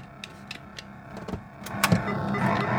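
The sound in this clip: Car engine sound from a 1980 Activision video game with a dragster-style car, a buzzy electronic drone with layered harmonics as the car drives and shifts gears, growing louder toward the end with no talking.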